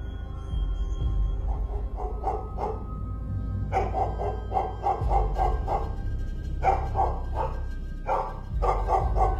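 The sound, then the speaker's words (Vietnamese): A fat dog lunging and barking fiercely in repeated bouts, with many loud barks bunched into quick clusters over a steady low drone. “Nó lồng lên, sủa từng hồi dữ tợn.”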